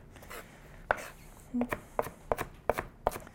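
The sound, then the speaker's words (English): A kitchen knife chopping an onion on a cutting board makes several sharp, dry knocks at an uneven pace, each a crisp wooden tap with a short fade. “There's probably 30 or more ways I know of to chop an onion. This is a really easy one. We're not worried about the size too much or the shape. We're just gonna kind of go across with our knife”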